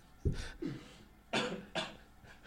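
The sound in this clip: Someone coughs after breathing in a drink: four sharp, fairly faint coughs in two pairs, with a short pause between the pairs.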